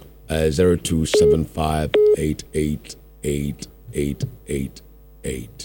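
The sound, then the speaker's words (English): Telephone tones sound as a caller's line connects on a radio call-in show. A couple of brief steady beeps come amid short, loud, voiced bursts. “Let me take my last call. It's past 12 now. I'll take my last call.”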